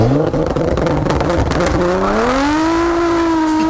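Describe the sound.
A car engine revving loudly at a traffic light as needless, antisocial noise: a steady, loud roar whose pitch climbs after about two seconds and then holds high, with no talk over it.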